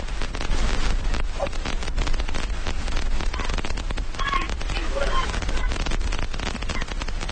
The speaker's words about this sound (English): I think we got some rain coming down. I don't know how long it's been coming down, but I just noticed it.